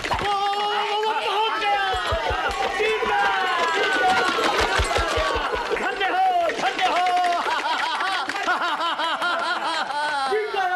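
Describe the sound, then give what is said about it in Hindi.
A crowd at a chariot race, a loud mix of overlapping excited voices, chatter and some laughter, with short runs of low rhythmic thumping underneath. “अरे वो देखो क्या रथ की दौड़ शुरू हो गई। अरे वो देखो तो रेश शुरू हो गई। अरे क्या बाकी और सजीले सवार है।”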